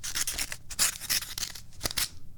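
Paper rustles and tears as a mailed credit card offer envelope is opened: a rapid series of crisp, scratchy bursts, fairly quiet and with no talk.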